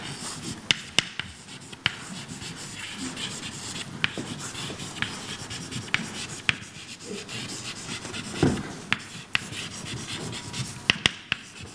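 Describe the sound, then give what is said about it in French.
Scratchy writing strokes on a board during a lecture, a run of short rubbing scrapes punctuated by many sharp ticks and taps, faint and steady with no talking. “Alors je vais l'écrire ici.”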